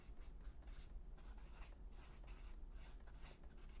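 A pen draws a little star on paper, heard as faint, scratchy strokes repeating in a quick, uneven rhythm.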